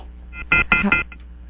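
A short series of electronic telephone beeps as a caller's line drops on a radio call-in show. A few clipped, tonal pips come in quick succession, followed by fainter blips.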